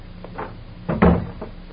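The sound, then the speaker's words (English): A door being closed in a warehouse: a faint earlier knock, then a short clatter and a heavier thud toward the end, with quiet background rumble. “Close the door.”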